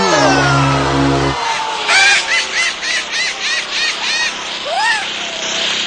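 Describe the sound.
Whammy sound effect from the game show Press Your Luck: a low buzzing tone gives way to a quick run of bright, warbling electronic chirps, then a swooping tone.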